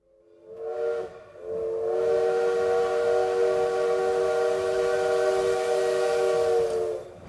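A train whistle sounds at a railway station in Spitak on an autumn evening: a brief blast, then a long, steady, loud tone held for several seconds before it cuts off.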